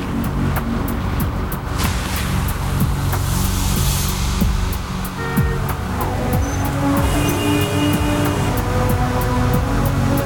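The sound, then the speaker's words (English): A van driving at night along rain-slick city streets after leaving a police precinct garage, with a steady low rumble and wet road hiss throughout, broken by scattered faint ticks. “A van drives into the night from the 21st Precinct garage and along the rain-slick streets.”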